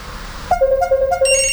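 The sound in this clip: A phone ringtone on an incoming call: after half a second of low background noise, a loud melodic run of bright electronic tones steps between pitches, growing fuller toward the end.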